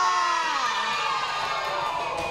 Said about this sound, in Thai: แล้วก็หมดเวลาปรบมือให้กลุ่มที่กลุ่มเลยค่ะ